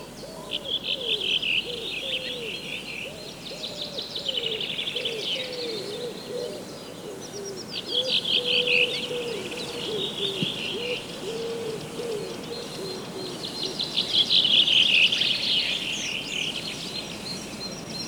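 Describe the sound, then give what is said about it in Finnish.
Birdsong fills a spring forest: many birds sing at once in a dense, continuous chorus of high chirps, trills and whistles, with lower cooing calls beneath. The chorus swells a little near the end. “Keväinen metsä on täynnä vehreyttä, se pursuaa elämäniloa ja lintujen laulua. Tältä tuo kuulostaa.”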